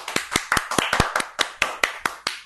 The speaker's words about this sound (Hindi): सही है। जी। Very good. ताली बजाएंगे।